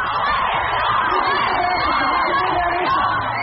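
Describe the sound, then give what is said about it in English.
A crowd cheers as a Wimbledon tennis champion returns home to Serbia for an open-top bus tour through Belgrade streets. The yells, whoops and cheering voices form one loud, unbroken roar throughout. “that was the sound that greeted Wimbledon tennis champ Novak Djokovic on his return home to Serbia.”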